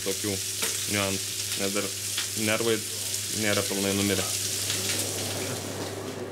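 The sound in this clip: Fish frying skin side down in a pan, then turned to cook about six minutes on the other side: a loud, steady sizzle and crackle throughout, with faint voices underneath.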